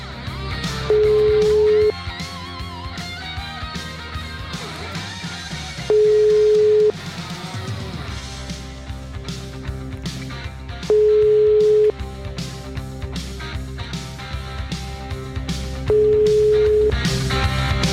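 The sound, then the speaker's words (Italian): A telephone ringing tone plays while a call waits to be answered, sounding as four evenly spaced steady beeps. Each beep lasts about a second, and they come roughly five seconds apart, each at the same mid pitch, over continuous background music. “Lascia squillare il telefono intanto.”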